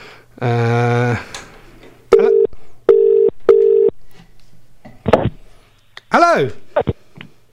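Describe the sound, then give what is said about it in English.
Telephone line tones on a radio phone-in. Three short, steady, mid-pitched beeps sound at even intervals, with other brief voiced and tonal sounds before and after them. “Oh, and we're going to go to the phone. I've not even opened the phone lines yet. Oh, who's that? Oh, have I missed a call?”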